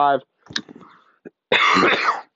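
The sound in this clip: A man clears his throat and coughs while presenting college football rankings: a brief voiced sound, then scattered rough bursts and a loud, rasping stretch lasting about a second.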